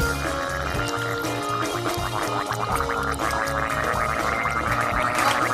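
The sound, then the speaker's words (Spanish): A man gargling in rhythm along to music, a wet, bubbling gurgle riding over a steady beat with thumping low bass, both loud and continuous throughout. “atención, Berto Romero gargueando en directo. Ay. Va a ritmo, escuchad, sí. Joder, atención, estoy haciendo arte, escuchad esto. Vamos a poner una música y Berto la sigue con gárgaras.”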